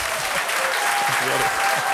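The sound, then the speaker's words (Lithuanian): An audience bursts into loud, continuous applause to welcome a rally-racing guest onto the stage, dense clapping at an even level throughout. “Ponios ir ponai, audringais plojimais pasitikime mūsų Dakaro lenktynių superžvaigždę Benediktą Vanagą.”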